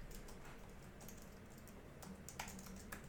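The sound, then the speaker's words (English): Soft, quick keystrokes tap on a computer keyboard in a loose run of many faint clicks, with a few sharper taps near the end. No one talks. “Hold on, excuse me while I type my...”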